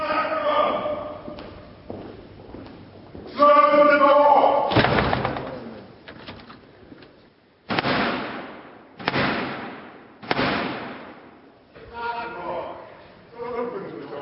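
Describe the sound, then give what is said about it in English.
Heavy ceremonial knocks as Black Rod, the King's Messenger, strikes Parliament's closed door to gain entry. Three loud, evenly spaced booming thuds stand out, with voices talking and murmuring around them. “Now, that was the sound of the 350-year-old tradition of the King's Messenger, the Black Rod, knocking to gain entry after having Parliament's door slammed in his face.”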